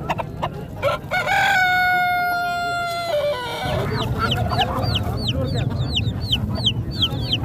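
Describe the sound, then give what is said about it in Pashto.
Domestic chickens and a rooster at a twice-weekly Friday bazaar in Tarinkot town: one long drawn-out crow, then many quick, repeated high clucks and chirps over a steady background din. “د کورنی چرګانو کلیوالو او وحشي مرغانو د ژغونه په ترینکوټ ښار کې له جمعه بازار یا ګنج څخه پورته کیږي”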